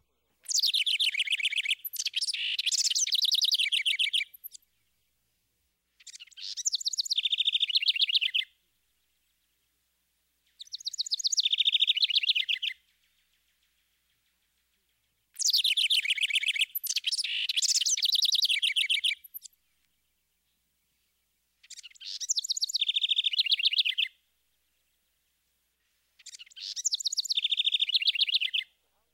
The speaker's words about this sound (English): Another bird with a complex vocalization is the house wren. His song is given in loud, impulsive bursts and is noteworthy for its bubbly exuberance.